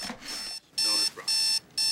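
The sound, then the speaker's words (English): An alarm clock rings in a hospital on-call room, blaring loud, high electronic bursts broken by short silent gaps. “Crashed out in the on-call room, Tara's woken by an alarm clock.”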